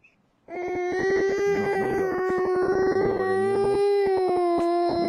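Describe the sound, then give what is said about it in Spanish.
A young child cries loudly in a sustained, wailing tone that holds a fairly steady pitch. It begins after a brief quiet moment and continues without a break for over four seconds. “No llores porque aquí están los hermanos, mira. Ahí viene mami. Ahí viene mami, no llores.”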